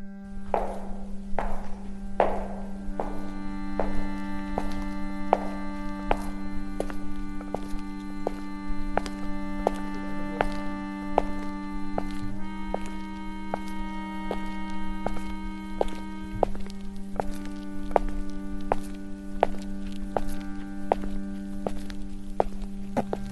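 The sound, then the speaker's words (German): Footsteps walk along a concrete path on a university campus, a steady run of regular treading steps with a constant low humming tone underneath. “Siehst du den betonierten Weg links von uns? Laufen wir ihn entlang.”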